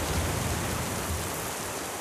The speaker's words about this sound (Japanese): この雨は！